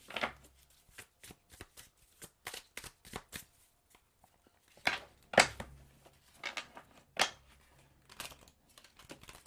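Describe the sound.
Playing cards are shuffled before the last card is drawn, with many quick, faint riffles and snaps in irregular clusters separated by short quiet gaps.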